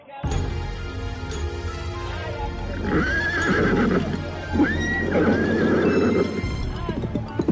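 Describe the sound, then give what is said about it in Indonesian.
A carriage horse pulling a horse-drawn cart whinnies loudly after being struck hard with a whip. Shrill, shaky neighs rise over a steady clip-clop of hooves and cart rumble. “Kuda meringki keras, kemudian berlari lebih kencang.”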